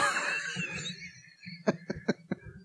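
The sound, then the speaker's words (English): A person with a phlegmy chest lets out a quick run of four short, wet coughs in close succession near the end, following a quieter stretch. “Dueling coughs. Sorry, I'm just all phlegmy.”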